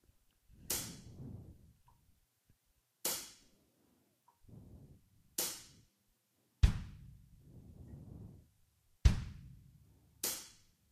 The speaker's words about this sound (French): tu vas donner que deux coups de grosse caisse. Tu laisses deux temps et tu redonnes deux coups de grosse caisse pour essayer.